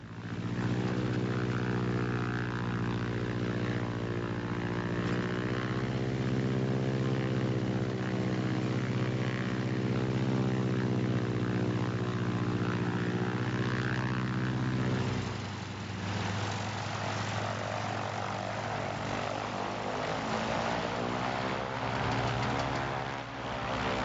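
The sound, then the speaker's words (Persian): A Stearman biplane's propeller engine drones steadily and loudly throughout with a rich, buzzing harmonic hum. Its tone shifts slightly partway through but never breaks. “یکی از هواپیماهای دلخواهم هواپیمای افسانه‌ای و دوباله استیرمنه.”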